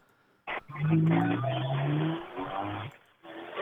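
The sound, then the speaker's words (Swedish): A Toyota Corolla race car's engine drives into a corner with a loud, tonal, sustained note for about two seconds, then cuts off sharply and briefly returns. “Det var en Toyota Corolla på väg in i tekon här.”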